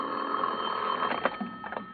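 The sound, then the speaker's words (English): A phone rings beside a bed at night, a steady, continuous electric ringing that runs the whole time with a few brief louder bursts toward the end. “I propped myself up in bed with a magazine and was almost asleep when my phone rang.”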